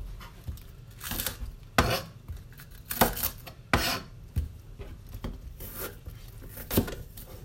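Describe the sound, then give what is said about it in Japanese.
A knife chops napa cabbage on a cutting board in many irregular crisp strikes, some sharp and loud, others softer, with crunchy leaf rustle between the cuts and no talking. “今日はこのまま白菜の下ごしらえを楽しみたいと思います。”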